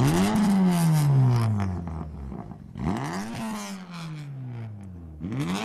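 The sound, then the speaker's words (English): A Honda Civic road car driving past several times, its buzzy, harmonic-rich engine note swelling as it approaches and then sliding down in pitch as it passes, repeated in three sweeps. “That must be a road car. The Honda Civic. Well, straight in there. Yes, that is the Honda Civic.”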